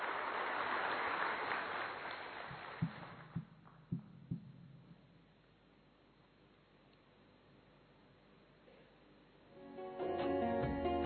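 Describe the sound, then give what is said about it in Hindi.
Audience applause at an event where performers have just sung: a dense wash of clapping that is strongest at first, then thins and fades to near silence over several seconds. “एक बार जोरदार तालियां इन सभी को।”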